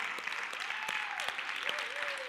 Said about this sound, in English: I don't say that because I want applause. She's actually the one who needs the applause